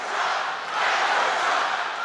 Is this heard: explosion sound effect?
no

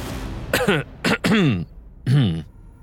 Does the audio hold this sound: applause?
no

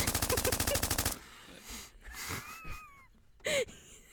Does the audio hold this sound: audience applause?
no

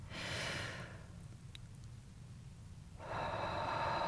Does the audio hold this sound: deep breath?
yes

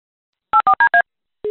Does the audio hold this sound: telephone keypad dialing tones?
yes

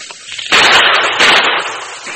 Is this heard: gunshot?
yes

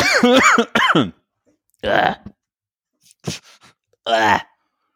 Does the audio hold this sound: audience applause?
no

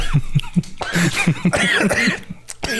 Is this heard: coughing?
yes

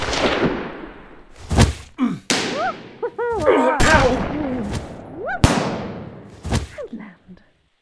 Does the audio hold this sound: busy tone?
no

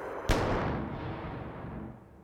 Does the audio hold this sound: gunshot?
yes

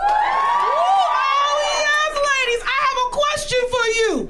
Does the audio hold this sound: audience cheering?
yes

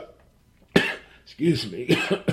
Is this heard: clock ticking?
no

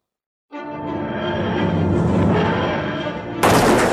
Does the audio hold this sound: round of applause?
no

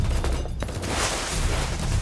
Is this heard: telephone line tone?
no

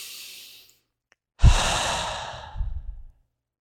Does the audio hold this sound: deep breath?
yes

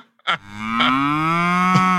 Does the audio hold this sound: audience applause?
no

